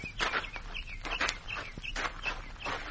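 Footsteps walking over to an old mine shaft make a few soft, crunching steps in an uneven rhythm, with faint high chirps in the background.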